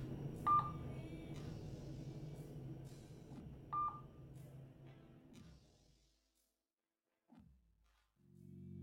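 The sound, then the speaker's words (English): Phone keypad tones while a number is dialed: two brief, high beeps spaced a few seconds apart over a steady low background rumble that then falls quiet. “I dial her number.”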